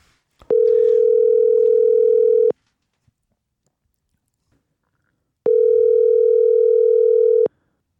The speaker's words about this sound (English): Let's dial them.